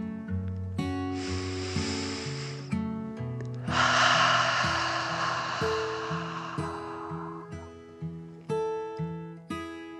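A slow, deep breath in and then out, portraying a dragon settling onto a soft bed of moss. It comes as two long, airy rushes, the second fuller and longer, over a gentle, steady music bed.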